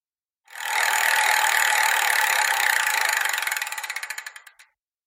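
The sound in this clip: A prize wheel is spun, its pointer rattling off a rapid run of clicks that blur into a buzzing ratchet. Toward the end the clicks slow into distinct ticks before the wheel stops, about four seconds in all, with no talk.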